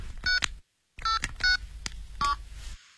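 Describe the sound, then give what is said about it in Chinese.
A mobile phone is dialed with a series of short, bright keypad beeps in uneven bursts. One brief pause falls between the tones. “好，那么你现在就给那个南京先生打电话，打手机”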